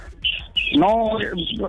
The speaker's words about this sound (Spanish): Son bocinas que ponen para que los pájaros no se coman la uva.